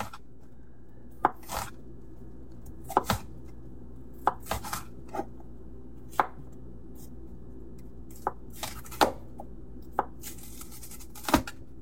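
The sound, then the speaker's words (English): A knife slices an onion into rings, giving many sharp, crisp cuts at an irregular pace, with a few quick doubled strikes. No voices. “Then we're going to slice our onion into rings.”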